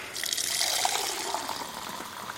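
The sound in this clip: Water is poured or run into a glass for drinking, making a steady, bright, splashing trickle that continues quietly and evenly without voices.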